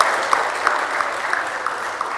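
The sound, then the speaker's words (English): Applause from an audience at a school gathering, marking a rise in student enrollment: dense, steady clapping for about two seconds with a few sharper individual claps standing out, no voices. “Round of applause.”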